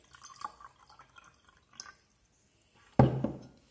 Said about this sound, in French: Je verse mon eau dans mon sel.